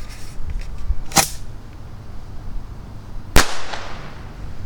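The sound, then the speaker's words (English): Bottle rockets launched from a tube give two sharp, loud cracks about two seconds apart, the second with a brief fading tail, over low background noise. “I'm setting up a tube here, and I've got a dozen bottle rockets in my hand. So we're going to launch some bottle rockets. Here we go, rocket number one.”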